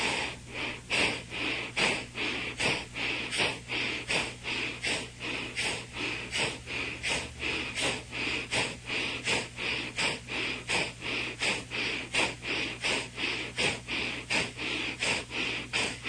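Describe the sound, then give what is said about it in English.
Forceful rhythmic breathing during a breathing exercise that stresses exhalation by pulling the stomach in: many quick, breathy pulses in a steady, even beat, repeating without pause. “Remember, the emphasis is on the exhalation by pulling the stomach in. So let's take a deep inhalation and”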